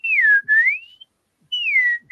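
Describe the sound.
Cheerful human whistling in clear, bright notes that slide in pitch, with one brief dip and then a rise. There is a short pause before another phrase of whistling.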